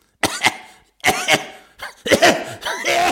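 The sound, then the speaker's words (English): Coughing from a tickly throat comes in several uneven clusters of harsh, rasping bursts. Some bursts have a strained, voiced edge, and the fit grows denser toward the end. “Just a tickly throat. Nothing a Strepsil won't deal with. Probably choking on a bean.”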